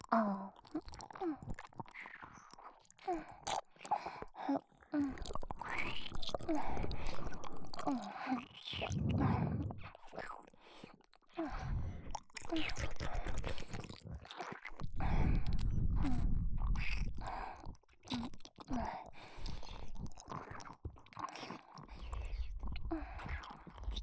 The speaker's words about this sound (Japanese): じゃあもっと大人のエッチなキスしましょ